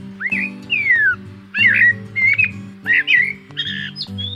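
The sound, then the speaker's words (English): Eurasian blackbird song: a few short, fluting whistled phrases separated by brief pauses, with a low steady tonal layer sounding beneath each phrase. “Eurasian blackbirds are common in the gardens and throughout the countryside in Great Britain.”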